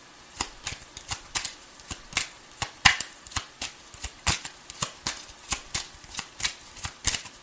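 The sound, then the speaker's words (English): Tarot cards being shuffled: many crisp, snappy flicks and riffles in a fairly steady rhythm, with no talk. “May I have three cards, please, for Sagittarius, for the June love energy.”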